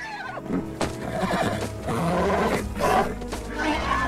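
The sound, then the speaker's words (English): A mare whinnies and snorts as she runs away at night from someone trying to put a bridle on her. Her loud, shrill neighs rise and fall, with rough breathy bursts and scuffling movement underneath. “Katie tries again to put a bridle on Flicker, who runs away, stomping her hooves.”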